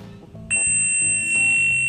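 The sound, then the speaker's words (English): A high-pitched test frequency tone begins after half a second and holds steady, piercing and shrill, to the end. A faint low rumble of background sound sits beneath it. “So here's like the first frequency that you'd hear if you were gonna do this one. Ooh, pretty annoying, right?”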